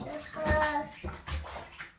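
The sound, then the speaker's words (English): Water sloshes and splashes in a bathtub as a child rinses soap off their body, a run of irregular, fairly loud swishes and drips that rise and fall in quick bursts. “Go lie back and wash all that soap off your body.”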